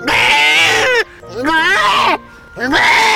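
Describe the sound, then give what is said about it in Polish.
A human voice imitates an ordinary, friendly goat bleating, making loud, wavering, quavering bleats: two long ones and the start of a third. “Jeśli napotkacie kozę, taką zwykłą, normalną, przyjazną, to ta koza robi tak. A jeśli okaże się, że ta koza robi właśnie tak,”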